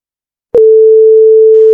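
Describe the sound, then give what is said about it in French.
A telephone line tone: a click, then a single steady, loud mid-pitched tone held without a break to the end. “Le téléphone. Téléphone. Allô, allô.”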